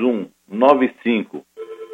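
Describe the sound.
A telephone ringing as a listener calls in, its steady tonal pulses sounding alone near the end after a voice talks.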